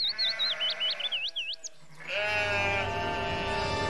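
Sheep bleating as a flock is driven into a forest: high warbling calls give way to a long, wavering, nasal bleat that fills the second half.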